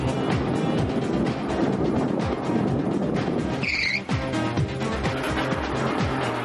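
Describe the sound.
A racing car's engine roaring as it accelerates down the straight during a race, with repeated revving sweeps throughout and a brief high tyre squeal partway through.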